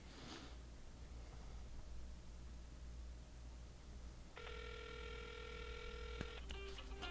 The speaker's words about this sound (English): Oh, my phone is ringing.